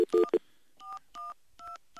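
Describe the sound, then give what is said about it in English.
Telephone keypad tones as a phone is dialed: a quick cluster of louder beeps, then a few slower, separate, steady touch-tone beeps, alone and fairly faint. “Okay, I'm gonna dial the phone again.”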